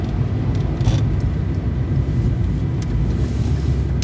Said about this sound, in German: Jetzt müssen wir eben am Stoppschild halten, gucken, fahren.